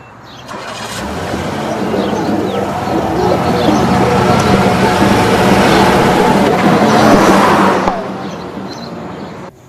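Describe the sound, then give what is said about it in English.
A car driving off: broad engine and road rumble swells in over the first second, holds steady and loud for several seconds, then drops away abruptly near the end. “As he drives off, Pometer in his SUV watches from across the road.”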